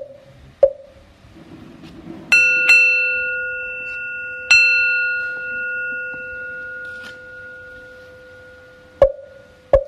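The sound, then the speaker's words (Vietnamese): A bell struck a few times, each strike giving a bright, clear tone with a long, shimmering sustain that overlaps the next. Sharp knocks also come near the start and at the close. “Lặng nghe từng tiếng chuông ngân”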